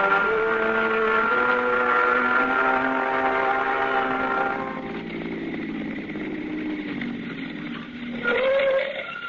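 A car engine drones steadily as the car drives along. The hum sinks lower partway through, then surges briefly higher near the end, moderately loud and continuous.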